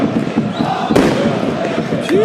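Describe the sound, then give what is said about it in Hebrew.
Fireworks exploding outside a stadium: a few sharp bursts and crackles over a continuous roar of crowd noise. “איזה זיקוקים אנחנו מקבלים פה, חבר'ה, מופע פירוטכני מחוץ לאצטדיון.”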